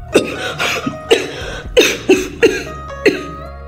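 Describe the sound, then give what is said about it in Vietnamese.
Violent coughing from a man, heard as a run of harsh, forceful coughs in loud, uneven bursts, with short gaps and one quieter cough in between, alone without talk. “Đột nhiên y kịch liệt ho.”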